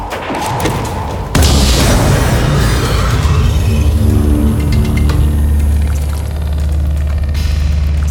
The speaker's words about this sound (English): You better fire your ray gun at them.